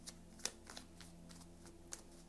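Faint papery snaps and slides of a tarot card being drawn from the deck, a few soft ticks with two sharper clicks standing out, alone and very quiet.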